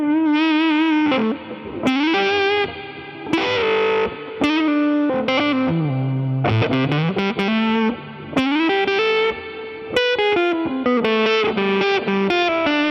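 Electric guitar played through a fuzz pedal, loud and heavily distorted, with sustained notes and chords that shift in pitch and ring out with a thick, buzzing tone; no talking.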